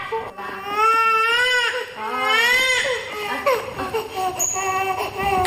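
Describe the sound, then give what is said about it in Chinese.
A baby sister cries in loud, high wails, two long sustained cries followed by shorter, broken sobbing whimpers, continuous and unaccompanied by clear talk. “别哭啦。”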